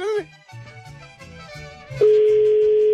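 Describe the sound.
A steady telephone line tone after dialing a number comes in abruptly about two-thirds of the way through and holds at an even, loud pitch to the end, after a stretch of other sound.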